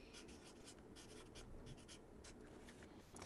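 Pen strokes of an abbreviation being written by hand: a rapid series of scratchy, papery strokes, each a short rasp, running continuously with no speech.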